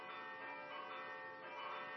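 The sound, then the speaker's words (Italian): Church bells of Notre Dame in Paris ring in a dense, sustained wash of overlapping metallic tones, steady and fairly loud for the whole two seconds, with no voices. “I rintocchi delle campane di una Notre Dame da cartolina non ancora bruciata annunciano il rendezvous più importante.”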